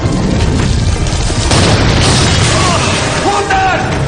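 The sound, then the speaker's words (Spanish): A deep, loud boom from an explosion inside a collapsing mine shaft swells into a dense, rumbling roar that fills the whole stretch without letting up. “una explosión lo tira”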